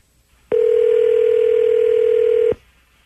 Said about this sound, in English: All right, I'm dialing him up. Here we go.